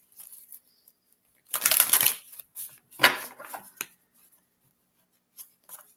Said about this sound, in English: Let me pull a card. Let's get one of these cards right here.